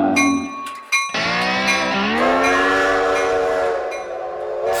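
A steam train's horn sounds in one long, loud, sustained blast after a few brief tones, with a low rail rumble beneath it.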